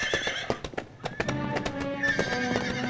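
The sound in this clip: Horses neighing as riders in an outlaw gang set off, with many quick hoof clip-clops in an uneven rhythm and a bright, wavering whinny rising over them in the second half.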